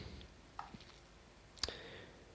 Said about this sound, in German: Naja, egal, wir klicken trotzdem mal durch.